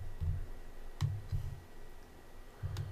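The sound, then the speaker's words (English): Soft key clicks on a small wireless keyboard come in a few short bursts of taps separated by pauses. The typing is faint and heard alone. “This wireless little keyboard's been a game changer though.”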